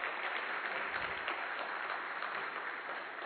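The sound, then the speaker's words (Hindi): An audience applauds in a large hall at a meditation and yoga gathering. Clapping is faint but continuous and even, with no break. “तो एक बार आप सब अपने लिए जोरदार ताली बजाएं ऑडियंस.”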